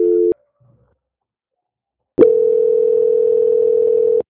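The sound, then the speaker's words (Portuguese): Telephone line tone during a call transfer: a short steady tone cuts off, followed by near silence, then a loud sustained steady tone that holds for about two seconds before stopping. “Aguarde em linha, por favor, que eu vou transferir a ligação.”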